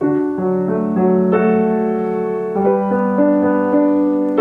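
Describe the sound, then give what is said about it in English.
A melody played over major chords, with sustained, rich harmonic notes that shift to new chords several times. The music is steady and full, with no voices. “Now, if I take that same melody and add major chords underneath, it now sounds like this.”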